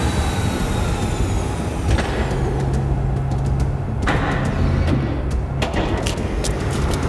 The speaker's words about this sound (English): Okay. Hatch is opening.